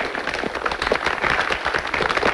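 Students in an audience applaud an artist introduced at a school assembly, producing dense, irregular clapping that stays fairly steady in loudness with slight swells, with no voices heard.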